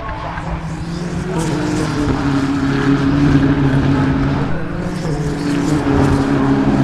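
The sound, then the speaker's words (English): Muffled engine drone from a car with side exhaust, said to sound like a four-cylinder turbo, forms a dense, steady rumble with a faint tonal hum. “when it's going by, you get to hear one side, and it sounds like half of the motor. It sounds like a four-cylinder turbo as it goes by, extremely muffled.”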